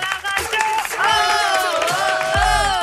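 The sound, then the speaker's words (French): Applause and cheering for a contestant on a French radio game show: steady clapping with whooping, wavering voices on top, continuous for about three seconds. “Applaudissements pour Jessica, les amis.”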